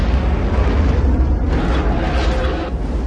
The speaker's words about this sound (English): A torpedo shoots under the Akula and detonates. The Akula explodes in a huge ball of fire.